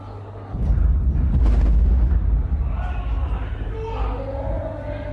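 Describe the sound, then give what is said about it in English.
A bombardment explosion in Gaza City rolls in as a loud, deep rumbling blast that swells, holds for about two seconds and slowly fades, with voices rising afterward. “posted a video online of her small son while the bombardment was underway”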